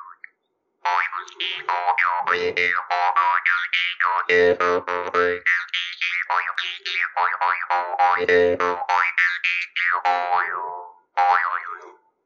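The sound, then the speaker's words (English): A jaw harp, a small metal instrument held in the mouth, twangs in a continuous, rhythmic stream of boinging notes with shifting, wah-like overtones and a few brief pauses, with no talk. “So this is the jaw harp, which we have right here. It's just a little piece of metal. And the sound and spirit is supposed to come through this end and come out here. And you make a sound like this.”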